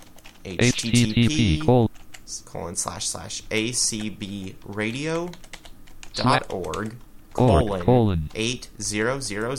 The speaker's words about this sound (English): So here I will type